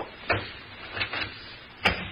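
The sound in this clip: An office door is eased shut with care, giving a few soft, quiet knocks and clunks spread across a couple of seconds, with no voices.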